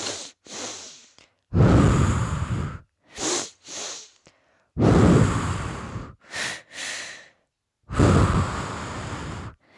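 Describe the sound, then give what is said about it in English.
A person breathing in a pattern of two short, sharp inhalations followed by one long exhalation, repeated three times, with brief silences between the breaths and no talking. “2 breaths in and 1 breath out. So it sounds like this.”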